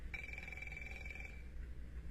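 A telephone rings faintly, one bright electronic trill lasting about a second over a low background hum.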